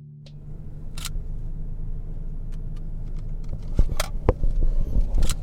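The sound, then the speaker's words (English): A car drives through BLM land outside Baker with a low, steady engine rumble. Scattered light clicks and taps sound over it, and louder thumps come near the end. “we're driving through some BLM land outside of Baker, and I saw this road, a dirt road cut off from the highway”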